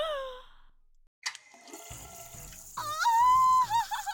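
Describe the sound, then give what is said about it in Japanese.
Water sprays from a hose onto a person, a soft rushing and gurgling spatter with wavering tones. It follows a brief faint tone and about a second of silence, then grows louder toward the end. “ホースでたっぷり水をぶっかけて、うんこで汚れた私を洗って。”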